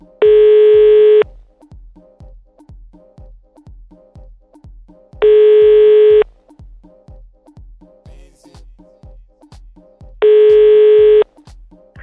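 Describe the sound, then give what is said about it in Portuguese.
Telephone ringback tone on an outgoing call: three long, steady tone bursts of about a second each, recurring every five seconds over a regular low ticking pulse. “Então nós vamos ligar pro Fernando, saber qual que é do Fernando.”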